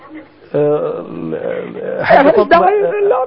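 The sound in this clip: An elderly woman wailing and crying in grief over her son killed in a car crash: a long, loud moaning wail that breaks into ragged, sobbing cries.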